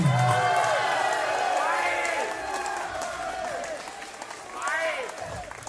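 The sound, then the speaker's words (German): Audience applause at a live dialect comedy and music performance, with the crowd calling for an encore: steady, dense clapping that holds throughout, with cheers and voices over it. “Ja, gib mal so ein paar Hände. Hol dir noch eine Zugabe.”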